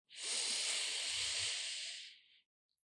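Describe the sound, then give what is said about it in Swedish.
A single deep breath drawn in, a long, steady, airy hiss lasting about two seconds that fades at the end, faint and heard alone without talk. “Ta ett djupt, djupt, djupt, djupt andetag.”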